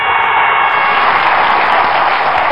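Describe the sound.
Applause as a loud, dense wash of clapping that holds steady and even from start to finish, with no voices over it.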